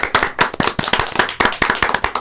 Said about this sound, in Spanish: Feliz cumpleaños, Andar. Bien. Un aplauso. Bravo.